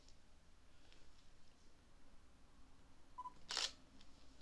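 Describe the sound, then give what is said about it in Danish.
A camera shutter fires once as a picture is taken: a single sharp, bright mechanical click that stands out against a faint, steady background hiss. “Og tage et billede af det her.”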